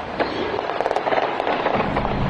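Gunfire erupts during an outdoor sports victory celebration, many rapid sharp pops layered over a loud, dense roar of background noise.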